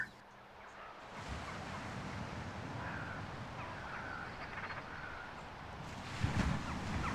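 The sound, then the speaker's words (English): Gentle waves lap on rocks and sand in a cold wind, a faint, steady wash of soft surf noise that swells slightly near the end, with no voices. “You can feel the chill bite of a cold wind and taste the salt in the air. You hear the gentle lapping of waves on rocks and sand,”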